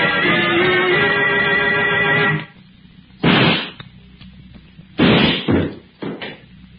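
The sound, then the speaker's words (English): A gunshot goes off in a struggle over a gun in an old radio drama. A dense, rumbling stretch of noise is followed by several sharp, loud bangs with short decaying tails, and no voices are heard. “You shot him. No, Corbin. It was an accident. Armstrong tried to take my gun. In the struggle, it went off.”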